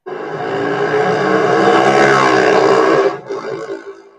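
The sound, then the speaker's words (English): A solar bike passing by in a store parking lot: a loud, buzzing, harmonic drone that holds steady for about three seconds, then breaks off and trails away in rough, uneven bursts. “A solar bike drove by, ignoring him, nearly running him over.”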